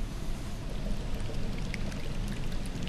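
Colourless liquid is poured through long tubes into two chambers of a laboratory device, making a steady, rushing wash with faint trickling droplets throughout.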